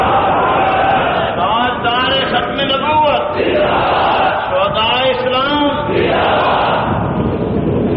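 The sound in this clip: A crowd at a religious speech roars back in answer to a Nara-e-Takbeer slogan, with loud sustained unison shouting in overlapping waves of voices.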